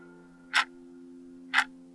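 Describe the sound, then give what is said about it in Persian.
Clock ticking: two sharp, crisp ticks about a second apart, faint but distinct over a steady low hum. “چه رو مخ شده صدای تیک تیک ساعت”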